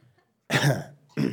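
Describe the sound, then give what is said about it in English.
A cough from someone fighting a cold with a ticklish throat: one long, rough burst after a brief silence, then a second, shorter cough, both fairly loud and without talk. “Give me a moment to cough a little.”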